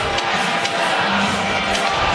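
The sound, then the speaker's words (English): Visiting hockey fans in a 7,000-plus seat arena chant "Go Spits Go." The crowd noise is loud and rowdy, with cheering and shouted voices throughout. “Wow, I'll give the crowd credit here. They've got a Go Spits Go chant going.”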